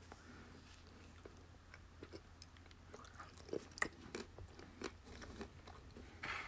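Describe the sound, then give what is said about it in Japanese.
Someone takes another bite and chews, producing faint, irregular crunches and soft mouth clicks with quiet pauses between them. “けれどもちょっと食べてみたいと思いますと。うん。もう一口食べます。”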